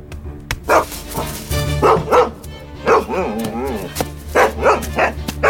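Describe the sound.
A dog barks repeatedly as it chases, with sharp, loud barks coming in uneven bursts and a wavering yelp-like stretch in the middle.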